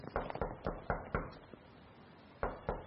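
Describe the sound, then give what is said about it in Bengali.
Knocking on a door: a quick run of soft, faint raps, a pause, then two more knocks. “দরজায় দ্বিতীয়বার টোকা দিতেই গলা ভেসে এল”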